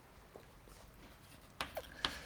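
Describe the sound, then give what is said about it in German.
Handwriting during a lecture gives a few short, scratchy strokes over a faint, quiet background, with the sharpest marks coming close together near the end. “also ich schreibe jetzt nur die essentiellen Teile hin”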